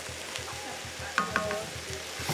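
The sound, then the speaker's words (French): Tomatoes and garlic fry in a pan with a steady, soft sizzle while a utensil stirs them in quick, regular scraping strokes, with a few sharper clicks against the pan. “On va surtout continuer à bien remuer, j'imagine.”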